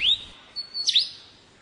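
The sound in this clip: A lyrebird mimicking the songs of other bird species gives loud, high chirps and clear whistles. It opens with a quick upward sweep, then brief pauses lead to a bright cluster of sharp notes near the middle, alone without voices.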